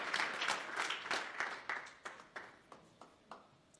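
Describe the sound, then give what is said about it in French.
A church audience applauding, a quiet wash of many hands clapping that thins out into a few evenly spaced single claps toward the end. “Acclamons la parole de Dieu pendant que nous nous asseyons.”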